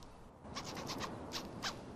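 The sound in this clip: A pencil case zipper being fiddled with in a classroom: several short, faint raspy strokes in uneven succession over a soft background hiss.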